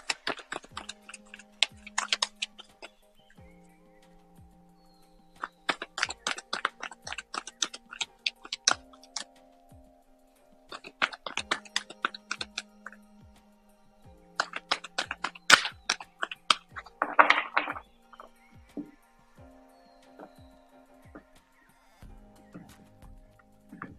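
Cards being shuffled and drawn for a card reading make clusters of sharp clicks, snaps and soft rustles in several bursts, with quiet pauses between them and one brief louder flurry near the end. No voices are heard.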